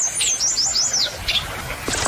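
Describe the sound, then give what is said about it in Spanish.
Song of a western tanager, a North American migratory bird, recorded in a rural area near Cali, Colombia. A high, wavering warbled phrase is followed by a few short, thin notes over faint background noise. “Lo que acabamos de escuchar fue el canto de la piranga carirroja”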